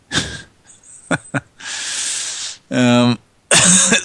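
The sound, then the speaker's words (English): A person coughs a few harsh times in short bursts, with a longer raspy, breathy stretch like throat clearing and some brief voiced sounds between the coughs. “excuse me. Got a cough here. Hang on. Cough, folks. Got a cough.”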